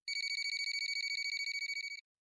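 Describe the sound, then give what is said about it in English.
A telephone rings with one burst of rapid electronic trilling. High, bright twin-toned pulses repeat quickly for about two seconds, then stop abruptly. “the phone rang again.”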